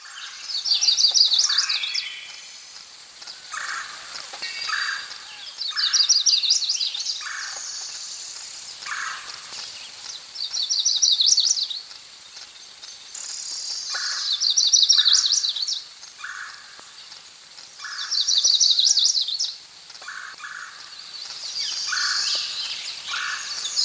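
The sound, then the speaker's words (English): Northern Parula song: a high, buzzy rising trill repeated five times at regular intervals of about four seconds, over a quieter, continuous bed of insect chirping. “Northern Parula.”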